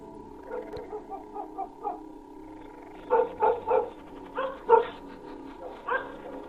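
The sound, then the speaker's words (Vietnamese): A dog barks inside a house at dusk in a long run of fussy barks. A series of quick, fairly soft barks is followed by several louder, sharper ones at uneven intervals. “con Vàng vầu nó lại thò cái mõm ra mà sủa nhặng cả lên.”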